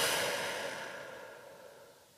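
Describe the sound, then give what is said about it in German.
Deep breathing in through the nose and out, heard as a soft airy rush that steadily fades over about two seconds, with no talking. “Und atme ganz tief ein und aus.”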